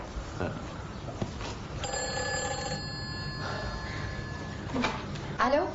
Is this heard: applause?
no